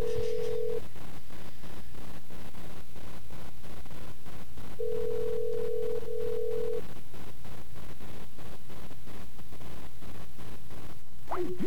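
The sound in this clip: A telephone rings at a payphone, a steady buzzy ring running through the whole clip over constant, noisy background hiss.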